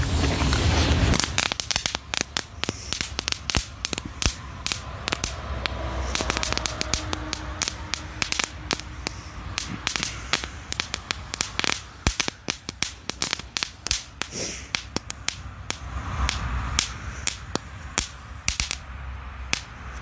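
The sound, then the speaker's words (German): A spent firework device keeps burning and crackling on wet ground, giving off many sharp, irregular pops and snaps over a continuous hissing fizz that runs on for a long stretch without talk. “das Ding brennt noch ziemlich lange nach. Sogar im Nassen.”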